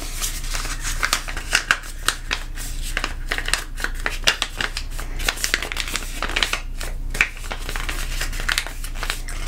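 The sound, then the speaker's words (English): An item is folded away with continuous crinkly rustling and many small, crisp crackles throughout. “I'm just gonna fold this away.”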